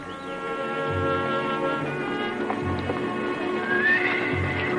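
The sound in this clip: A horse in the stables whinnies, with a few soft hoof clops. The sound is steady and fairly loud throughout.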